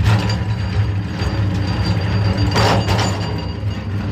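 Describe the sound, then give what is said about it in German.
Clanking, rattling machinery fills a silver mine in Potosí, where heavily loaded carts are pushed by hand along wobbly rails. The grinding is continuous and loud, with two sharper bursts near the end. “So klingt es in diesem Bergwerk.”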